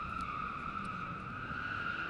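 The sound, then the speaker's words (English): Cars racing in a road race outside give off a sustained, high-pitched whine of engines and tires. The tone stays steady and continuous throughout. “We got a road race going on.”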